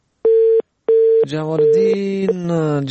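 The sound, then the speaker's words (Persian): A telephone busy tone after a dropped call gives two even, mid-pitched beeps separated by a short gap, then a voice starts talking. “تماس قطع شد، نمیفهم که چرا. ای کاش قطع نمیشد.”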